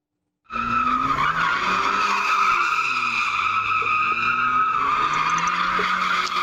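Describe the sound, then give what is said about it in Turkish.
Tires squeal as cars drift on city streets in Istanbul's Zeytinburnu and Karabük. The screech starts abruptly after a brief silence and holds loud and steady, with engine noise rumbling underneath. “Drift atan 4 sürücüye ceza yağdı. İlk görüntüler İstanbul Zeytinburnu ve Karabük'ten.”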